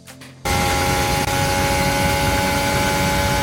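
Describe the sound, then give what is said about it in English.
Formula 1 car engine, a 2021 car at full throttle onboard during a pole lap down the main straight, a loud, steady, high-pitched roar that cuts in abruptly after a brief quieter moment. “We're on board with Hamilton in 2021 for his pole lap. So we're going down the main straight.”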